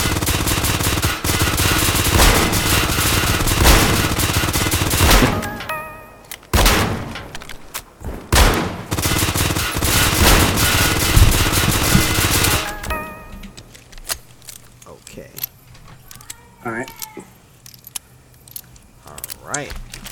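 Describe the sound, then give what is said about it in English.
Rapid gunfire from a slow-reloading weapon in a video game: many loud, dense shots crackle through the first two thirds, then the firing thins out into quieter scattered noise, with a voice talking throughout. “So, the reason I'm not shooting as fast as him is because this weapon is slow and it's slower to reload.”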